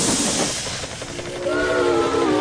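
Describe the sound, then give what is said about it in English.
A toy train lets out a loud, steady steam hiss, then a whistle joins in with a sustained, layered tone that carries to the end over the continuing hiss. “I've played with this train before.”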